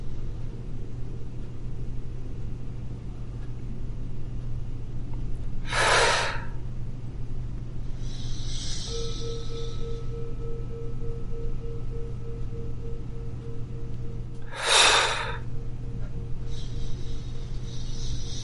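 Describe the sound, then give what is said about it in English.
Forceful breaths pushed out during a breathing exercise, with two strong, sharp breathy bursts and a couple of fainter ones over a low steady hum. “Let's do three outbursts, breathe out again.”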